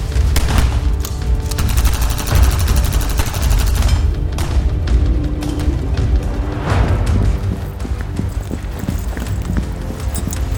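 Sustained gunfire in a video game battle, dense overlapping shots and booming impacts that roll on continuously and loudly throughout.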